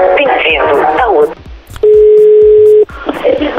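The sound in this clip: Telephone tones while placing a call: a single steady, clear tone of about one second sits between stretches of lively talk by several people.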